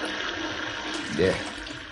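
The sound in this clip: Water runs from a tap as someone washes spilled liniment off their hands, a steady hiss throughout with a brief louder splash near the end.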